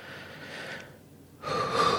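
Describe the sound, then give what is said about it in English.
A slow, deep breath during a guided tapping and relaxation exercise: a soft, airy inhale, a short quiet pause, then a fuller, louder breathy exhale, all fairly faint. “Nice big deep breath.”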